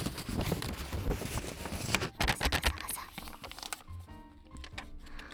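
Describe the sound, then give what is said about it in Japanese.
Paper receipts rub against each other, one from hay fever medicine and another confirming points on a loyalty card. Dry, continuous crinkling and rustling shifts in texture and loudness throughout. “レシートをレシートでこう擦ったりしてほしいですということなので、早速不要なレシートを用意しました。あー、もういい音。”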